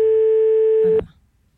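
A steady, single-pitched telephone line tone sounds as a phone call is placed. It holds evenly for about a second, cuts off abruptly, and leaves only faint low noise.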